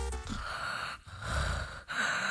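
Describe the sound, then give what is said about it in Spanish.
A human voice imitates soft snoring with drawn-out, breathy, rasping breaths in a slow rhythm, broken by two brief pauses, heard alone without words. “a mí me han dicho que ronco bajito. Me imagino que será algo así.”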